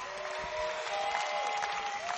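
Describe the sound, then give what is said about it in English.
Audience applause after a testimony at a church gathering: steady, dense clapping that holds evenly throughout at a fairly quiet level. “Why don't you put your hands together for God?”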